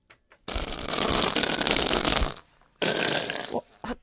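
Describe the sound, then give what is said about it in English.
A whoopee cushion in a reverberation chamber lets out a long, raspy, flatulent blast, then a second shorter one after a brief gap. “That, the sound of a whoopee cushion was number 7.”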